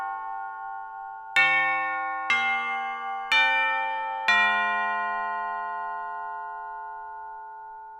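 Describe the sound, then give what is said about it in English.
Doorbell chime rings in a large house with a long upper wing, sounding four bright, bell-like notes about one second apart, each lingering and fading slowly so the tones overlap into a sustained ring. “That's the doorbell, right? Is somebody going to get that?”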